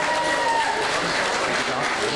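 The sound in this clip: Fans give applause to the FC Bayern München Amateure representatives: a dense, steady wash of clapping with a voice audible over it.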